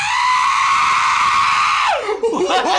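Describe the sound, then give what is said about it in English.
A man imitates a banshee scream, holding a loud, high, strained wail steady for almost two seconds before the pitch falls and breaks into rougher, wavering sounds. “The banshee. A banshee scream. Did you make that sound? Yeah, I did. I could do it again.”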